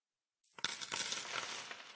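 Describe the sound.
Coins drop and clink as a sound effect in a coin awareness advert. After a moment of silence, a few coins strike in a bright metallic jingle that keeps ringing, fairly quiet overall.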